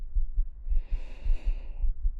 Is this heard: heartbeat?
yes

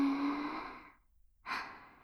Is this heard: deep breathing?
yes

